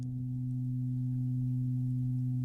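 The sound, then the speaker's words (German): A steady artificial background hum, used to give a radio piece a synthetic acoustic space, drones on at a low, even pitch with a second tone just above it, continuous and unchanging throughout with no other sounds. “da gab es dieses Hintergrundsurren, weil wir wollten dem Stück einen künstlichen akustischen Raum geben und etwas schwer definierbares als akustische Entsprechung nehmen. Das war dieser”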